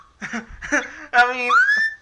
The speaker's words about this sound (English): as you can hear from the whistling in the background